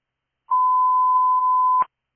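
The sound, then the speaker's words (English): A fire station alerting test tone sent over dispatch radio: one steady, unbroken mid-pitched tone holds for just over a second, then cuts off in a brief burst of static. “Station 14, testing tone. Station 14, testing tone.”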